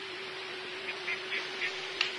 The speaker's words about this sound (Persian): این طرف دست چپ یه برکه آب پر از مرغابی.